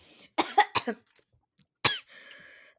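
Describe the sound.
Coughing after accidentally inhaling a bit of potato: a rapid burst of several harsh coughs, a pause, one more sharp cough, then a short hoarse throat-clearing sound.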